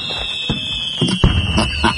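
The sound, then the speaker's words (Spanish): Fireworks sound effect for a village fiesta: a sustained high whistle runs throughout, overlaid by a few bursting pops and crackles. “Fuegos artificiales y todo el rollo”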